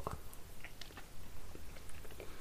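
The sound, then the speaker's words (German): Faint chewing and mouth sounds of someone eating caramel ice cream, with a few small soft clicks and no talking. “Ja, auf jeden Fall probieren wir jetzt hier mal auf Tom Lukas Empfehlung einfach mal random so ein Eis.”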